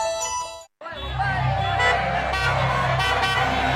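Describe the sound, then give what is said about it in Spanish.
Heavy evening road traffic, a dense and continuous rumble of engines with a steady low drone that starts abruptly after a brief opening and holds at an even loudness. “aunque parezca que hay un montón de tráfico, es que son las 8 de la tarde”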